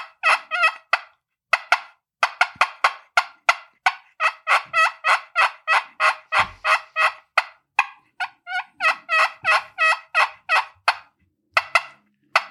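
A hand-held turkey call gives out many sharp, clucking notes in quick runs broken by short pauses, with a hand pressing on the call's plate; each note is bright and loud and stands alone.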